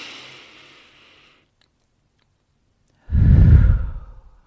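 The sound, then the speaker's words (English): A deep breath taken during a guided breathing exercise: a loud, heavy, breathy exhale lasting over a second. It follows a fainter, fading breath and a silent pause. “First off, let's take a deep breath right now. I feel like we need a deep breath.”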